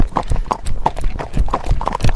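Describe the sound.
A horse trots with its hooves clip-clopping in a quick, steady rhythm of sharp hollow knocks, many beats in close succession, loud and clear with no talk.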